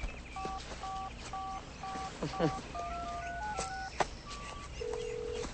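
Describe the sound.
Cell phone keypad tones as a number is dialed over and over: many short electronic beeps in a steady rhythm, then scattered beeps at varying pitches and a longer held tone at the end.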